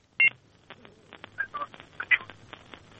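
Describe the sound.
Telephone keypad tones as a call is dialed into a radio studio: one loud opening beep, then a few softer tone bursts of differing pitch over a low hum and faint clicks.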